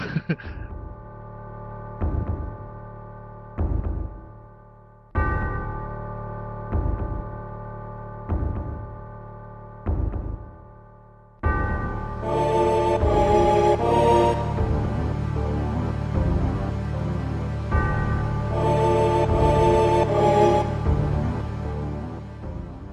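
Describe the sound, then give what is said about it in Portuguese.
Video game music from a Final Fantasy title featuring Sephiroth, as aired on Fantástico: a tense piece that opens with evenly spaced, struck notes at a slow steady pulse, then swells into a fuller sustained texture with bright, shimmering upper lines. “Então vamos ouvir aí um pouquinho da música que tocou no Fantástico.”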